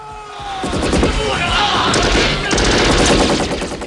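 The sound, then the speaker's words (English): Machine gun fire mows down rushing guards in a loud, continuous burst of rapid shots that blur into a dense, crackling roar with sharp impacts throughout. “As guards rush John, he mows them down with machine gun fire.”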